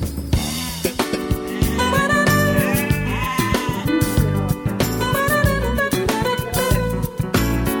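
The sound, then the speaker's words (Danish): Sheep bleating outdoors on an open common, with repeated wavering, nasal calls over a dense, continuous background of other sound. “Der er også nogle får herude.”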